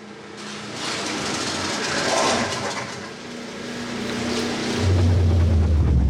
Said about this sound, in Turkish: Motora bir şeyler oluyor. Eyvah. Sanırım motor bozuldu.